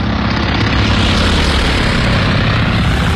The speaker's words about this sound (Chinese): 日军飞机在首次袭击中途岛后返航了，他们在寻找自己的航母。